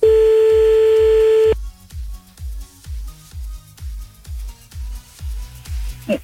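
Telephone line tones on an outgoing prank call: a steady, unbroken tone sounds alone for about a second and a half, then gives way to many short, evenly spaced pulses repeating at a quick, regular rhythm until the end.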